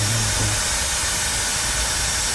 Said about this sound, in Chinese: 打开 APP， 点这个喷药，开启，这就是启动了。